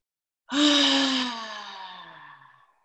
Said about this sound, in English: Breathe in through the nose for four. Hold it for four if you can. And then when you breathe out,